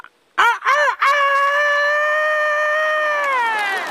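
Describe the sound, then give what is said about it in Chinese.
A voice imitates a rooster crowing: two short, loud, arching bursts, then one long, high, sustained crow that holds steady for about three seconds and wavers slightly at the end, heard alone. “你这公鸡叫的太亢奋了呀！惨一点会吗？”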